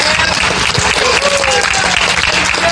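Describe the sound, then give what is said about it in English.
Loud, continuous applause from attendees of an evening awards event, many hands clapping in a dense, steady roar that stays strong from start to finish. “Give yourself a nice round of applause.”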